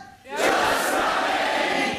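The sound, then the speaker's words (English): A studio audience at a pilot recording of a new film quiz bursts into a loud unison shout and cheer after a brief quiet moment, then holds the roar steadily for over a second. “That's the audience of a Radio 4... Is it Radio 4? No, it's Radio 2 pilot that I did the other day. A new film quiz with John Holmes.”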